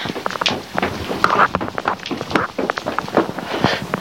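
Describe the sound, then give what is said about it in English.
Footsteps climbing the stairs of a warm house from the hallway, a long run of steady, fairly loud thuds with a brisk even rhythm and no voices. “And up the stairs we go.”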